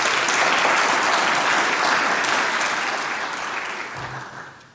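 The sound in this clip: Sustained applause from a lecture audience welcoming a speaker to the podium, dense clapping that stays steady and then tapers slightly toward the end.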